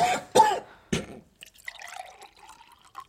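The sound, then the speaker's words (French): Harsh coughing from someone choking on a rabbit bone: a few rough, throaty bursts in the first second, then quieter trickling, splashing liquid sounds. “C'est le lapin. J'avale un os. Il faut le taper dans le dos bien fort.”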